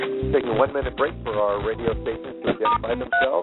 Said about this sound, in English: The funny noises you hear are very polite conference system shutting down.